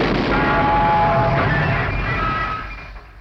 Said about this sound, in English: Oh, penguin on top of the telly exploded.